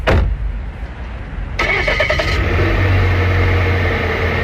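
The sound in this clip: A car engine starts and catches, then settles into a steady low running hum as a forest ranger drives off on his patrol, with no talk.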